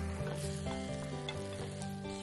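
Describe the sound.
An omelette sizzling in a frying pan as it is slid back in, a loud, continuous, steady hiss of frying eggs with no talk.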